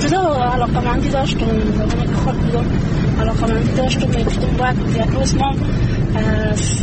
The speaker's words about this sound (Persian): او در جاده‌ای که بر روستایشان می انجامد رانندگی میکند و همزمان با ما گپ میزند